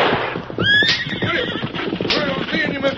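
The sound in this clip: A horse gives a sharp whinny early on, followed by steady hoof clip-clop as a driver urges a horse-drawn team onward. A man's voice calls out over the hooves.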